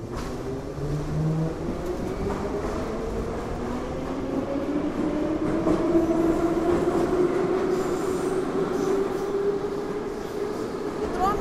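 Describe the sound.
A metro train runs loudly and steadily, its wheels squealing in drawn-out tones that slowly climb in pitch over a continuous rumble.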